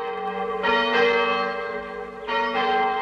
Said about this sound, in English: Spain, a rustic town square overlooked by a bell tower.